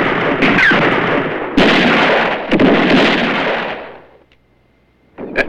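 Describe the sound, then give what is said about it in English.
Gunfire in a Western-style radio drama shootout among rocks: a few heavy, booming shots with long rumbling tails, then a brief lull before one more sharp shot at the end. “Under fire, Ramon hurries back to Esteban and Don Miguel behind the rocks.”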